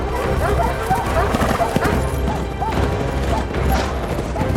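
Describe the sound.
Horses gallop during a mounted hunt with hounds through woodland, their hooves beating a quick, continuous clip-clop rhythm at a fairly loud, even level.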